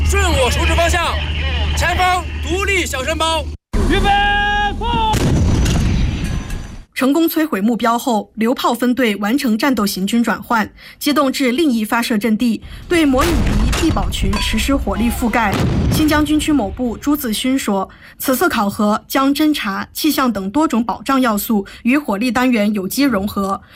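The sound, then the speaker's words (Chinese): Howitzer artillery firing at a target during a live-fire military exercise in Xinjiang: a heavy, rumbling boom, with a man talking steadily over most of the remaining sound. “依据回传数据，各班组快速装填弹药，对目标实施第一轮火力打击。”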